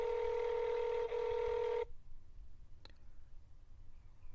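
A telephone keypad tone sounds while selecting an option in an automated phone menu. One long, steady dual-pitched beep with a brief dip midway is followed by quiet and a single faint click.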